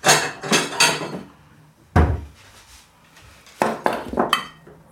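Knocks and clatter as a mass of Christmas cookie dough, still cold from the fridge, is put onto a plate. A few sharp clunks come at the start, then a single thud, then another short run of knocks, with quiet gaps between. No voices.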